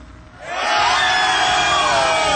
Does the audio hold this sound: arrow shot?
no